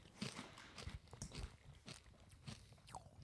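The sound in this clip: Freeze-dried caramel candy crunched while chewing: many quiet, crisp, irregular crackles and snaps with soft low thuds between them, continuing steadily without talk.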